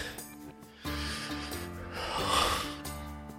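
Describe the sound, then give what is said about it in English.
A long, deep human breath, a sustained breathy rush lasting about two seconds and growing slightly louder, over a steady low hum. “Take a deep breath.”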